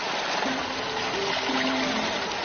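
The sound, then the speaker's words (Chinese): Water flowing into an irrigation channel: a steady, dense rushing wash that continues without a break from start to finish, fairly loud and even throughout. “随着潺潺流水再次充盈水渠”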